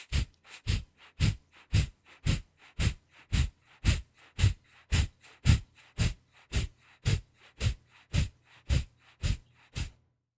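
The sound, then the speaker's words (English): Forceful breaths push out through the nose in a breathing exercise, each short inhalation followed by a powerful exhalation. Many sharp bursts repeat at an even pace of about two per second, with no talking. “It's a slight inhalation, then a powerful exhalation, and it sounds something like this.”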